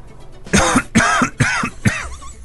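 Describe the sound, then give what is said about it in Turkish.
A person coughs on request, imitating a cow's cough, with four rough, voiced cough bursts in quick succession, each loud and husky. “İkincisi inek öksürüğü, bir öksür bakayım.”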